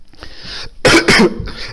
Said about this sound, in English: excuse me, it wouldn't be Sunday if I didn't cough.